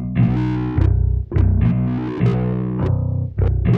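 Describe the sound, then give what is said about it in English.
A distorted, doubled bass line made of two layers of electric guitar, pitched down by a laptop effect and fed through a cable to an amp. Gritty low notes with sharp attacks follow one another in a steady rhythm, with no voices. “The bass guitar is pretty unorthodox. It's doubled. It sounds like this.”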